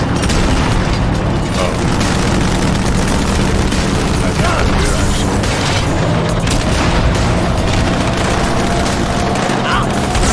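Gunfire from ghost enemies in a video game: dense, unbroken shooting mixed with heavy booming explosions, loud and continuous throughout.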